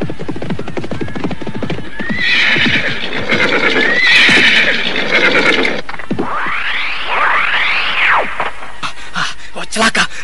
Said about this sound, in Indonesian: Penunggang kuda melarikan kudanya ke arah tempat kita.